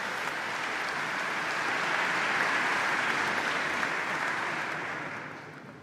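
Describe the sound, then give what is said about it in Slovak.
Nurses applauding during a sermon, a dense, steady wash of many hands clapping that holds at an even level and then eases off toward the end. “Že začali tlieskať sestričky, ktoré sú obeťami týchto našich kázní mnohokrát.”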